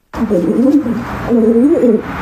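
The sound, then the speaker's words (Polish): Cooing of wood pigeons and collared doves at a pigeon rescue and care center, heard as two low, warbling coo phrases in a row, steady and moderately loud over a soft background hiss. “Zarówno grzywaczy, jak i sierpówek. Działa tam fundacja Gruszętnik, która zarówno leczy ptaki, jak i bada ich zachowania.”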